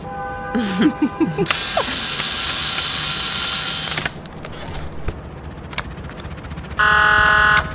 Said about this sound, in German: Ich muss an das Wartungspanel ran. Hast du einen Schraubenzieher? Hier.